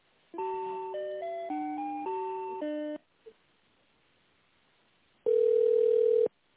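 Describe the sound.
Telephone tones while a call is transferred to another person: a short electronic melody of stepped notes, a pause with a tiny blip, then one steady, louder tone that cuts off abruptly.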